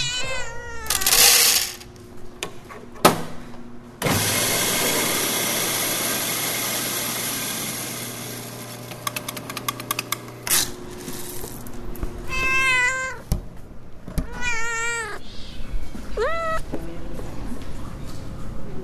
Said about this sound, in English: This is Cat Town Cafe, the very first cat cafe in America. Half coffee shop, half cat adoption center.